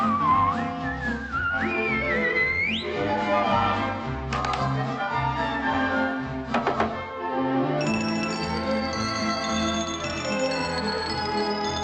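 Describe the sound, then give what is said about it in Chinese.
Whistled tune in the theme song of a 1987 Cantonese TV cartoon, a wavering melody over full backing music. Bell-like accents ring out in the middle and a brighter, denser section enters near the end. “必须吹吹口哨，一直吹吹口哨”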